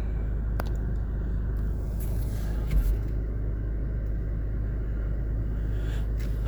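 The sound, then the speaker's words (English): Steady low rumble of a car driving on a highway, a continuous, even roar of engine and road noise that holds throughout with only a slight swell midway, and no voices. “So I'm going down the highway, and I got about 12 miles.”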